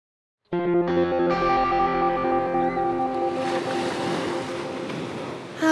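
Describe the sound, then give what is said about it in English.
Pacific Ocean surf washes in as a broad, rushing hiss that swells in the second half, beneath sustained tonal musical notes that enter together and build into a held chord. “That's the sound of the Pacific Ocean.”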